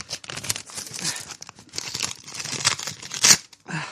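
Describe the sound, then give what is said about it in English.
Paper tears and crinkles as an envelope is slit open with a letter opener: a series of ragged ripping bursts with crisp rustles between them, ending in a sharper tear and a short final crinkle. “This letter opener. I think I might have cut the letter in here.”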